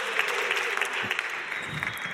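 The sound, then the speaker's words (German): A church audience applauds with dense, steady clapping that holds an even level throughout, broken only by a few brief louder peaks. “Lasst uns mal jubeln und uns freuen.”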